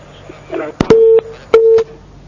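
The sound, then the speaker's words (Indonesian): A busy tone sounds after a phone call is disconnected: two steady, mid-pitched beeps of even pitch, preceded by a few sharp clicks. “Terputus kembali.”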